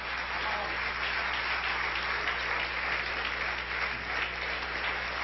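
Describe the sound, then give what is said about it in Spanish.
A church audience applauding during a service, a dense, steady wash of clapping that holds at an even, fairly loud level from start to finish. “Dale un aplauso a Cristo, que Él se lo merece.”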